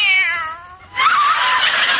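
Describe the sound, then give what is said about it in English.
A kitten meows: a drawn-out tonal meow that wavers and fades, then a louder, rougher, noisier cry that holds to the end. “Oh, there you are, you cute little kitten.”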